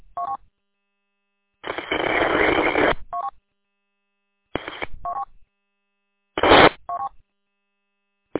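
Telephone keypad dialing tones on a radio link: a few short two-tone beeps separated by longer hissing bursts of static, with stretches of silence between them.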